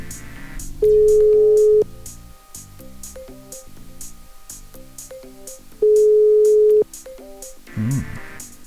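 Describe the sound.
A telephone call ringing tone: two long, steady beeps of about a second each, roughly five seconds apart, then a shorter third tone, all over quiet background music.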